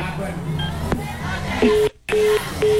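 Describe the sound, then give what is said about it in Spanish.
Three even, steady telephone tones beep in a regular rhythm, low and clear, after a stretch of murmuring voices and crowd chatter. “Sí, ahorita llego. Ahorita le vuelvo a marcar, a ver qué dice.”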